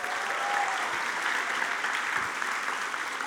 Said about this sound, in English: So can you put your hands together, please, and welcome Julian Adams.